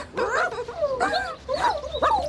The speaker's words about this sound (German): Oh, die armen Hundebabys.